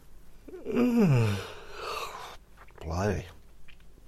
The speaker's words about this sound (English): I'm just getting all the yawns out of the way